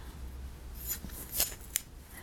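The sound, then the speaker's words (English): Scissors cut through cloth in a few faint, quick snips, with crisp bright clicks scattered over a quiet background. “Don't struggle, love. I'm just cutting cloth.”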